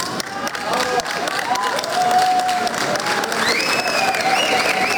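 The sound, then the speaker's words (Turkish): Applause and cheering from a crowd greeting a 27-year-old pilot at an airport after a historic motorsport success. The clapping is steady and dense throughout, with voices and shouts mixed in. “pilot havalimanında alkışlarla karşılandı”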